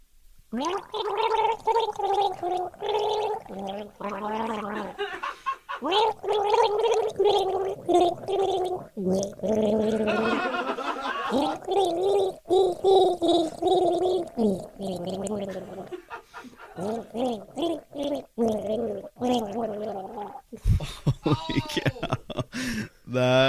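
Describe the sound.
A person gargles the melody of a love song, the bubbling, throaty water sound rising and falling with the tune in long, continuous phrases.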